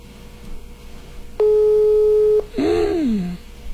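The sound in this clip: A telephone call tone on an unanswered call: one steady, loud electronic tone lasting about a second, followed by a short falling sound.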